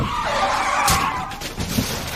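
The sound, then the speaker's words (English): A truck skids as it runs down a man, giving a loud, continuous hissing screech of sliding tyres that lasts about two seconds with no voices. “The truck runs down the man.”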